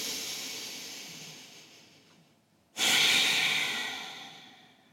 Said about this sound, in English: Let's all take a breath.